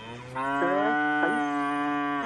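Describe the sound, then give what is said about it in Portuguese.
A cow moos for its feed, giving one long, drawn-out, strongly tonal bellow with small pitch wavers, loud and alone. “a vaca tá berrando, tá vendo? Já tá querendo... Tá querendo a ração dela.”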